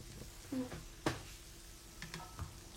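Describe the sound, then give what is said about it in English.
Eggs fry in a pan on a stove at breakfast, giving a faint, steady sizzle, with a few soft utensil clicks and scrapes over it. “careful. You're gonna make me burn the eggs.”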